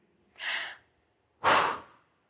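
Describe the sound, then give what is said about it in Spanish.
Two deep, gasping breaths from a diver who has just surfaced from a dive. The second intake is louder and rougher than the first, with a short pause between them and no talk. “Cuatro bocanadas de aire, las más importantes para que ese oxígeno vuelva a llegar a todos mis tejidos”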